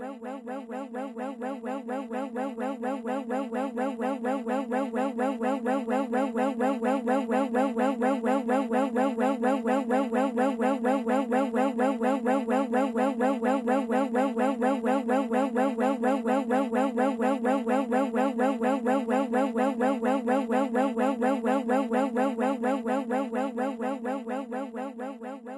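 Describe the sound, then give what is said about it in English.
Looped, ambiguous spoken syllables repeat in a steady rhythm for the whole clip, recorded to trigger the phantom word illusion, so the continuous babble can seem to form words. “Recordings to trigger the phantom word illusion are on Diana's website. We'll play a short sample, but to really experience the full effect, it is best to listen for longer.”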